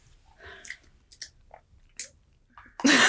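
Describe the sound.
Chewing on soft boba pearls: a few quiet, wet mouth clicks and smacks spaced irregularly, ending in a sudden louder burst.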